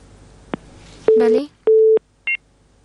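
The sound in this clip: A telephone busy tone after a listener's call is cut off: a few short, steady low-pitched electronic beeps, with a brief fragment of voice between them and a shorter, higher beep near the end.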